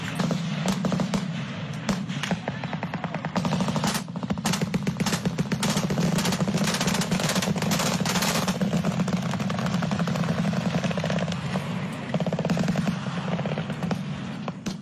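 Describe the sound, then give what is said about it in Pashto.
Heavy-weapons gunfire in cross-border fighting between Afghan and Pakistani forces: many sharp, rapid bursts crackle almost without pause over a steady low rumble for the whole stretch. “په انټرنیټ خپرې شوي ویډیوګانې ښیي چې د متقابل لوري په یو بل باندې د درنو وسلو ډزې روانې دي”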